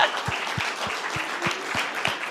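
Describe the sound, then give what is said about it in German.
Applause from an audience at a live show, a dense, steady wash of many hands clapping, moderately loud, with faint low thumps recurring about every third of a second beneath it. “Einmal großen Applaus für Kaspar.”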